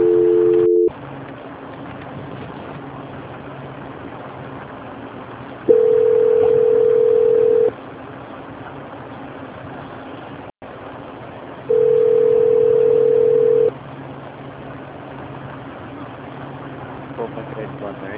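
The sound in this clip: Telephone line tones during a call transfer: a brief two-tone beep, then two long, steady beeps of about two seconds each, spaced several seconds apart over a constant line hiss.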